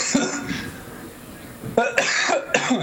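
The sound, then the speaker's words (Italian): Harsh human coughing: one brief cough near the start, then after a quiet pause a cluster of loud, rasping coughs close together. “davvero, scusate, proprio di stamattina questa tosse.”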